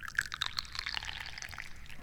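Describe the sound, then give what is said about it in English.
Tea pours into a teacup in a soft, faint trickle, a bright liquid splash with small droplet glints that tapers off over about two seconds, with no talking. “I like to pour tea into teacups.”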